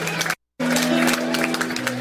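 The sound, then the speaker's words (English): Audience applause and cheering at a reggae concert, dense crowd clapping over a sustained musical tone, broken by a brief dropout to silence near the start before the noise resumes at full level. “A big round of applause for the now generation.”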